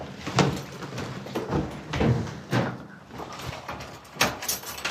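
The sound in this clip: A door being closed and locked: a few dull thumps and clunks with rattling clicks from the latch and lock, spread unevenly over a quiet background with no talk.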